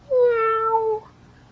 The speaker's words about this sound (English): I see a purple cat looking at me.